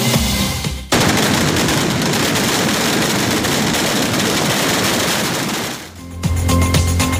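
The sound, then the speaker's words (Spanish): A kilometre-long string of firecrackers exploding at a town's patron saint festival: a dense, continuous roar of rapid cracks and bangs that bursts in abruptly, holds loud for about five seconds, then drops away. “este es el sonido de la espectacular traca kilométrica que se lanzaba ayer en las fiestas patronales de Xeraco.”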